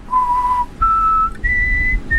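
A person whistling high, clear notes: three held tones, each a step higher than the one before, loud and alone with short breaks between them.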